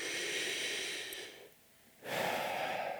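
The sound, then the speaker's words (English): Several people take a deep breath in and out together: two long, steady breathy rushes separated by a brief quiet pause, with no talking. “Everybody take a deep breath with me.”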